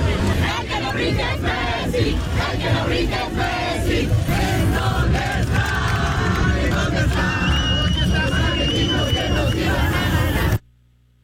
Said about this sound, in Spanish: cánticos ya tropicalizados, sobre todo, contra el equipo argentino. Esto fue parte de lo que se escuchó.